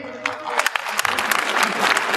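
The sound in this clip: Audience applause at a stand-up comedy show: dense, loud clapping runs through the whole clip with a few sharper claps standing out, mixed with some crowd voices.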